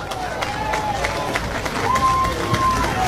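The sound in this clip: College baseball fans making noise in a stadium during a Super Regional game. A steady crowd din is laced with a few shrill whistles.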